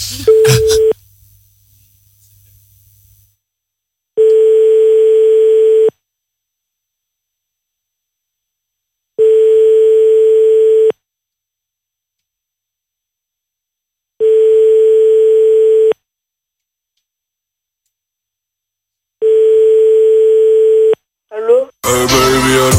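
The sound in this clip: Telephone call tones as a call is placed: a steady tone at first, then four evenly spaced, loud ringing tones with long silences between them, and a voice answering at the very end.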